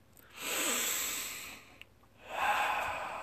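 A deep breath: two long, airy, noisy breath sounds separated by a short pause, each swelling and fading smoothly, fairly faint and with no talk.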